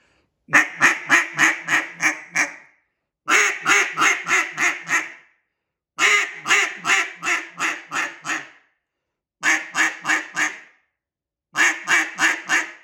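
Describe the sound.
Rapid quacking from a cut-down duck call, blown in five short bursts of clipped, evenly spaced notes separated by brief pauses. Each burst holds several quick, nasal notes that fade slightly toward its end.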